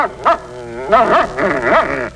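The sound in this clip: A dog barks at a cornered rattlesnake in a few sharp, high-pitched yelping barks, loud and uneven in rhythm and spaced close together.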